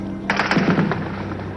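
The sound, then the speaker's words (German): Gunfire from a heavy exchange of shots during the 17 June 1953 uprising: a quick string of sharp cracks in rapid succession over a steady low hum, then fading into background noise. “Beginnt soeben wieder ein heftiger Schusswechsel.”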